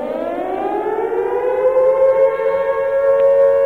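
Second World War air raid siren wails in a loud, sustained tone that climbs slowly in pitch across the whole stretch, its rich overtones steady and unbroken, with no talking over it.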